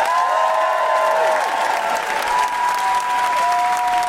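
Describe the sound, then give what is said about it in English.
Audience applause and whooping greet a comedian at a live Amnesty International benefit comedy show. Dense clapping holds steady at full volume, with sustained woohoo cries sounding above it. “Please put your hands together and make incredible woohooing noises for the wonderful Camilla Cleese!”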